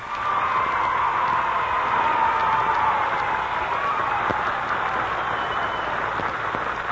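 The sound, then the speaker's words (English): Audience applause welcoming performers as they come on stage, a steady, even wash of many hands clapping that holds for about seven seconds without letup. “So what do you say we give them a big hand as they come on stage,”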